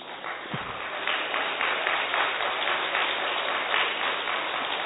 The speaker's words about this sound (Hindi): आप पर हर गलत चीज में ताली बजा रहे हैं पिछले एक घंटे से, ठीक है।